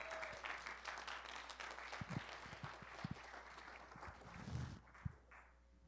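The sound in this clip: Moderate audience applause welcoming a speaker to the front, a soft patter of clapping with a few louder claps that thins and fades out near the end.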